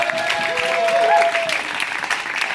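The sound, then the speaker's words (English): Audience applause welcoming a speaker to the stage, a steady, dense wash of clapping from many hands that holds at an even, fairly loud level throughout. “Will you guys give Mark a warm welcome?”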